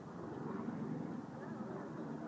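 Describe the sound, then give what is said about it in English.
Helicopter flying overhead near the Temple of the Moon, a faint, steady low drone beneath a person talking. “That's a helicopter, actually.”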